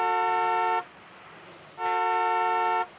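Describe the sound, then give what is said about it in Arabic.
A car horn honks twice at a vehicle blocking the street. Each blast is long, loud and steady, separated by about a second of quiet. “زمر له زمر له”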